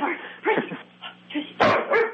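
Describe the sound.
A dog barks, with a couple of short, sharp barks at the end after a person's coaxing voice.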